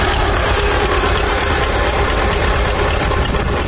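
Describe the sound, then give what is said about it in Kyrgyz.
A German crawler tractor, refitted with rubber wheels and converted into a crane, runs its engine in a steady, loud, low rumble that holds unbroken for the whole stretch with no talk. “Кас таман герман тракторуна желим дөңгөлөк салып, алдына кошумча дөңгөлөк темир тезектерди кошуп отуруп, кадыресе кранга айлантыптыр.”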